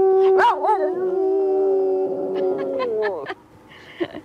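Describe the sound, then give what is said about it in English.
A dog howls loudly in one long sustained note that wavers at the start, holds steady, then drops off, followed by a few brief, fainter yips. “Oh, you silly dog.”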